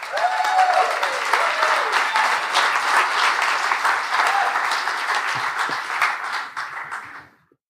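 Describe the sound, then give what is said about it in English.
Audience applause for a comedian at a stand-up show: steady, dense clapping that holds at an even level for several seconds, then thins and dies away at the end. “Please make some noise for Frieda Werdiger!”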